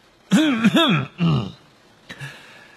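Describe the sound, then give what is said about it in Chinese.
A person clears their throat in a few short, voiced, gravelly rasps, followed by a pause and one fainter rasp, heard alone without talk. “邓布利多清了清喉咙”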